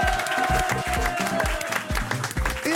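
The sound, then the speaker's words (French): Audience applause as an ovation, with many hands clapping in a continuous wash over a steady, regular low thumping beat that repeats throughout. “une ovation pour Francis Lalanne”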